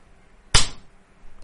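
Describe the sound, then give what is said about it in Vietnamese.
A loud slap sound effect of a hand striking someone's face: a single sharp, bright smack that dies away quickly into near silence. “vung tay trực tiếp quăng cho Dương Dương một cái tát vang dội.”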